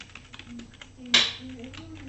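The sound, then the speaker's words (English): Quick, light clicks of typing on a computer keyboard run under talk, with one sharper, louder keystroke near the middle. “let me type it out here for you guys on Twitch.”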